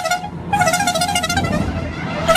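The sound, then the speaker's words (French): The small horn of the Tour de France publicity caravan honks at a roadside stage, a bright, brassy, wavering horn tone that sounds for nearly two seconds over a low rumble of background noise. “le passage de la traditionnelle caravane du Tour de France, avec en plus le char d'issue et puis ce petit klaxon qu'on adore.”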